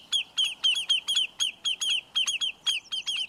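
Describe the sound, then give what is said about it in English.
Alarm calls of a lesser yellowlegs, a shorebird defending its nest from a threat. Many sharp, high, piercing notes come in a rapid, insistent, evenly spaced series, loud against a quiet background. “when the shorebirds called lesser yellowlegs sense a threat to their nest, they'll put up an unforgettable racket to drive the danger away.”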